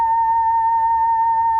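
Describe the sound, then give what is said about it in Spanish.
A photodiode box turns sunlight into sound during a solar eclipse, producing a steady, clean electronic tone at a constant mid-high pitch with a faint higher overtone, unchanging and alone for under two seconds. “Lo que acaban de escuchar es la luz del sol. Es muy sencillo, es simplemente una caja que consta de un fotodiodo que está en la parte superior y que transforma la luminancia del sol en un sonido.”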